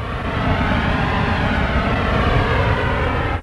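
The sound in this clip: An auto rickshaw engine drones steadily and loudly without pause, then cuts off abruptly at the end.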